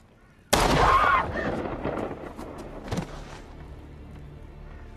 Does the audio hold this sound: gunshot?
yes

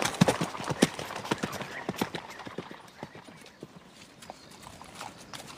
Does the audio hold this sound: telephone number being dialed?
no

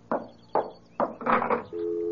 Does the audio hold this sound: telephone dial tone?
yes

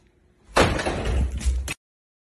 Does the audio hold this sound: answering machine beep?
no

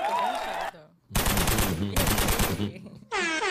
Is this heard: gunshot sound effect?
yes

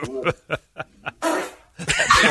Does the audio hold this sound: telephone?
no

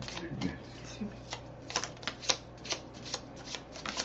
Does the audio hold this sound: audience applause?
no

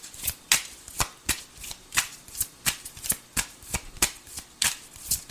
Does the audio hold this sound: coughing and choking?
no

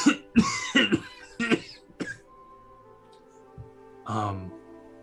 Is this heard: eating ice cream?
no

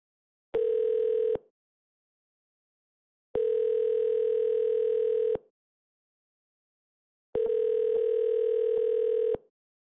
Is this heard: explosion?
no

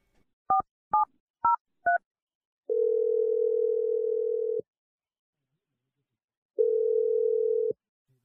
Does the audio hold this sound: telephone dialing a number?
yes

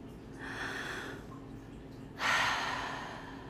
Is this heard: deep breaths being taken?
yes

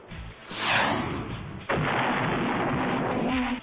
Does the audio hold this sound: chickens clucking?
no

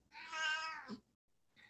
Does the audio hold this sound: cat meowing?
yes

